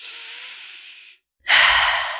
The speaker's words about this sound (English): Take a deep breath